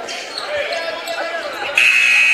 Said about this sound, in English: And there's the buzzer.